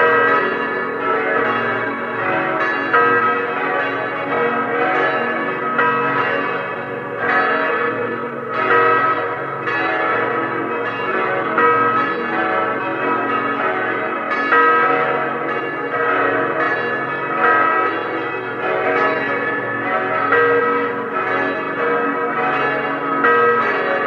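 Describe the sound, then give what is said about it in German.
Church bells of the Stadtpfarrkirche St. Andreas in Lienz, East Tyrol, ring at noon. Several bells peal together in a loud, resonant, continuous wash that holds steady throughout. “Es ist 12 Uhr. Sie hören die Glocken der Stadtpfarrkirche Lienz in Osttirol.”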